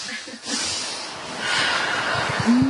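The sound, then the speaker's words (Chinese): Deep breathing is demonstrated as air is drawn down into the belly and then pushed out through the mouth. Soft, breathy hissing swells and eases across the moment. “然后这样，呼吸很深哦，啊，从这边呼吸到肚子那边，啊，从肚子都送到上面去哈，然后就送出去，送出去用口了”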